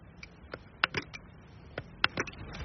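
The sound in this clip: Buttons pressed on a braille display to scroll text line by line: faint, crisp clicks in small irregular clusters, separated by short quiet gaps.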